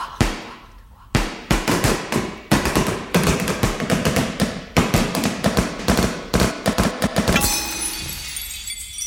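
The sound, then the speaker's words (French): Tap dancing: many loud, sharp clicks in rapid irregular bursts with brief gaps, ending in a hissy wash. “Ok, eh bien mon vieux, vous êtes viré du cours de claquettes.”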